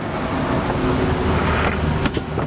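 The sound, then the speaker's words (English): A black sedan approaches with a steady rumble of engine and road noise, holding an even loudness throughout without a clear swell or pass-by. “Ross and George turn to see Brain and Bob approaching in a black sedan.”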